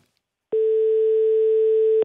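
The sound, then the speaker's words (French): Telephone ringing tone during a call: a single steady, unbroken mid-pitched tone of about a second and a half, heard alone with no voices. “Vous pouvez l'entendre, ça sonne.”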